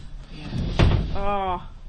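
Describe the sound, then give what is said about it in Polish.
Doors of an Ikarus bus working as they open and close, a short solid thud followed by a brief tonal sound, with a voice faintly present. “Drzwi pracują.”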